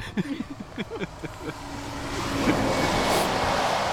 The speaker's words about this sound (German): Eine Windböe.